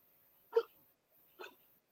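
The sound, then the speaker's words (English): A dog making two short, soft huffing noises, each a brief burst separated by near silence. “I was going to say, what was that? That was my dog.”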